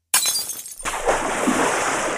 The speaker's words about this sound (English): Maybe dos huevos? Or two eggs? Let me just crack them here into the pan.